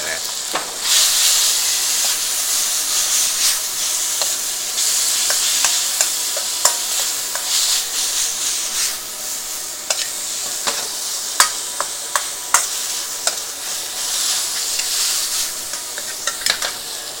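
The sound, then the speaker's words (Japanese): Back fat sizzles and fries in a pan over leaping flames, cooked Chinese-restaurant style. A loud, steady hiss runs throughout, with many sharp pops and crackles scattered on top. “背脂に炎がこう飛んであれですよあの中華料理屋みたいな感じになってるよ”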